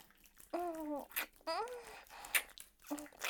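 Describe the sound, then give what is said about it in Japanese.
Soft, wet kissing on the lips, quiet and intimate, mixed with murmured vocal sounds and breathy voice fragments. “さっき私にもキスさせて。 いいよ、はい。 後輩くんの唇いただきます。”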